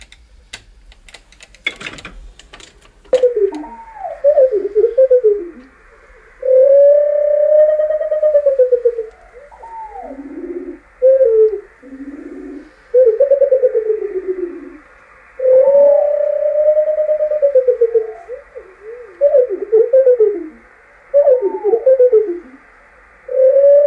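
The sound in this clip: Bird song from a bird singing in circling flight, played slowed down, turns into long, swooping whistled phrases and drawn-out tones separated by short pauses, with a few sharp clicks at the start.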